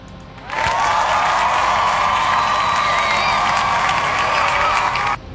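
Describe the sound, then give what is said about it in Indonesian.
Sustained applause from a crowd, dense clapping mixed with some cheering, starts abruptly and holds at a loud, steady level for nearly five seconds before cutting off. “Wah, kita kasih tepuk tangan.”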